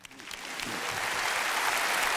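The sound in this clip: Audience applause welcoming a speaker to the stage at a church gathering, swelling from a few early claps into a dense, sustained wash of clapping that grows steadily louder and holds at full strength.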